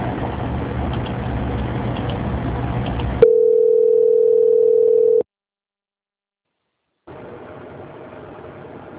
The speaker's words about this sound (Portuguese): Então, eu vou transferir a ligação para o setor da auditoria, tá bom?